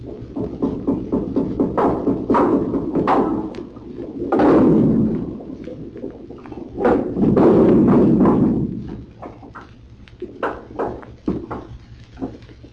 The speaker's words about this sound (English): Pounding on pipes and bulkheads.